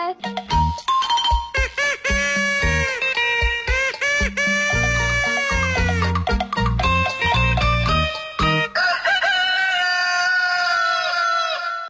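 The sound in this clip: A rooster crowing within a lively morning jingle, set among chime-like doorbell tones and music with voices, ending on a long, drawn-out crow.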